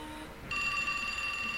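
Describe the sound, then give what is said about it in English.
Telephone ringing: a bright, sustained electronic ring begins partway through after low background hiss and continues steadily, fairly faint, with no voices. “I ought to get one of those doohickeys that only allow outgoing calls. Hello and good evening, caller.”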